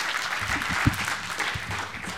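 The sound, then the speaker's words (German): An audience at a conference session breaks into applause, a steady patter of many hands clapping throughout, with a few slightly louder claps standing out. “Einen runden Applaus.”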